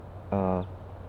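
A female bird gives a single short, buzzy, harmonic call while foraging, lasting about a third of a second, faint over a low background hum.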